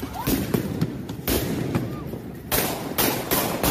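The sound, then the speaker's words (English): Guns are fired at police in a series of sharp, loud shots over a noisy background. The blasts come at irregular intervals throughout. “Oh, they shot guns at him. Oh, they're shooting guns at him, real guns. They're blasting at the police.”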